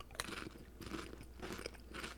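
Italian red meat flavored chips are crunched and chewed in a few rhythmic bursts of crisp crackling. The crunches are faint and close, with a sharp bite at the start and no talking.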